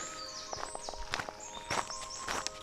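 Footsteps of two people walking on a hiking trail on a damp May morning: many uneven, soft crunching steps in a loose rhythm, with faint high bird calls above.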